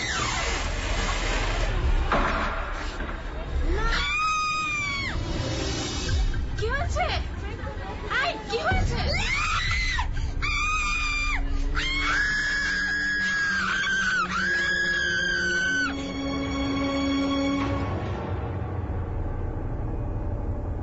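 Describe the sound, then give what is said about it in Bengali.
Two girls screaming inside an old, filthy toilet block: several shrill, high-pitched cries break out in bursts over a dense, noisy babble. “মেয়ে দুটির চিৎকার শুনে দৌড়ে এলো আশেপাশে যারা ছিল সবাই।”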